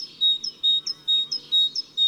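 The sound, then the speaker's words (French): A great tit singing: bright, high two-note phrases repeated in a quick, steady rhythm, each phrase a short sharp note followed by a longer, even whistle, with no other sound. “Après la bleue, la mésange charbonnière. C'est la plus costaud et la plus sonore des mésanges.”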